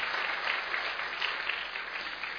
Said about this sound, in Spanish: Démosle un buen aplauso al Señor.